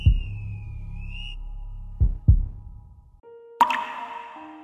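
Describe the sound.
Water drops falling: a few resonant, hollow plops, each ringing briefly before fading, set against steady whistle-like tones that shift pitch between drops.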